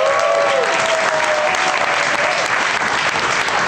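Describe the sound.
Audience applause greets show guests as they come out: a loud, dense, unbroken wash of clapping that holds steady from start to finish.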